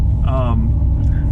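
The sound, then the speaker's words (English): The drive unit noise of an electric truck, filtered and amplified so it sounds more pleasing, makes a steady low rumble and hum throughout, with a person talking over it. “that's the noise you're hearing is an enhancement of the actual drive unit noise.”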